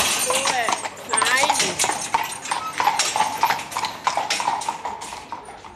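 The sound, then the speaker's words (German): Hooves of horses pulling a carriage clip-clop on the way back to the stable after a compost-collection round, a steady stream of many quick, hard taps with voices mixed in. “Unterdessen ist die Kutsche gut gefüllt und die Rosse kommen langsam Hunger über. Die Komposttour ist fertig, jetzt geht es zurück in den Stall.”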